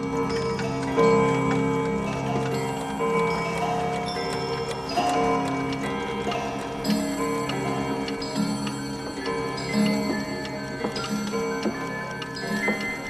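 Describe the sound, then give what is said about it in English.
A roomful of clocks, including a display of musical clocks, tick and go off together, producing a dense, steady layer of ringing, sustained tones and chimes with light ticking throughout. “She turns and looks at the clocks as they all go off.”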